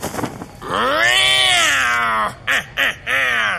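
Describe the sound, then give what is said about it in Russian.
A cat meows: one long, loud yowl that rises and then falls in pitch, followed by three shorter calls, with no talking over it. “Что? Что такое? Кот? Зачем тут кот?”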